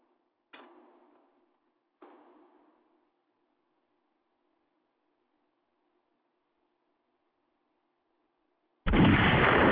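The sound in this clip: Two sharp gunshot bangs come about a second and a half apart during a live stream, each trailing off quickly. A long silence follows, then an abrupt burst of loud, harsh noise.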